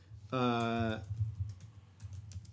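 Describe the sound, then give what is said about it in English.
A computer keyboard produces light, scattered clicking keystrokes that follow a brief sustained vocal tone and continue faintly to the end. “You can hear me type.”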